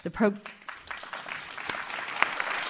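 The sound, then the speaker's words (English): Live audience applause at the Winspear Opera House in Dallas's AT&T Performing Arts Center, a dense patter of clapping that rises after a brief voice at the start and holds steady to the end. “We have a live audience, as you can hear, at the Winspear.”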